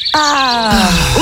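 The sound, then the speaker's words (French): A human voice imitates bird calls with a strained, wavering tone rich in stacked harmonics that slides downward, then ends in a short upward chirp. “T'as progressé dans ton imitation. Oui, alors tu n'étais pas là depuis le début de la semaine. J'ai tenté quelques imitations d'oiseaux qui se sont soldées par des échecs.”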